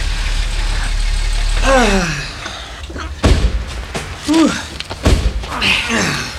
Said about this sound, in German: Ich fahre dort auf den Rastplatz, Kollegen.